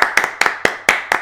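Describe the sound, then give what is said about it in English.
Two people clapping to welcome a guest produce a sparse run of about nine sharp, bright claps. A few land as near-doubles where the two pairs of hands strike slightly apart. “That is the sound of two people clapping.”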